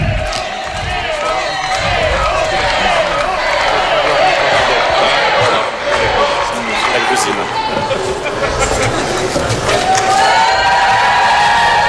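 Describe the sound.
Crowd cheering and shouting to acclaim Pope Leo XIV during his visit to France, a loud, steady roar that holds for the full twelve seconds with scattered whoops.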